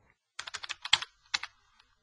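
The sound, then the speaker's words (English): Quiet typing on a computer keyboard: a quick burst of crisp keystrokes, a short pause, then a couple more taps. “Let me type that in.”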